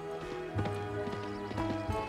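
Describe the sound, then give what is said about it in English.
A horse gallops across a green field and into a forest carpeted with rust-colored leaves. Its hooves make a rhythmic run of muffled, repeated thuds at a steady, moderate loudness. “She gallops across a green field and into a forest carpeted by rust-colored leaves.”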